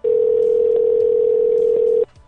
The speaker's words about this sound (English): I'm calling the first pizza place from Sloth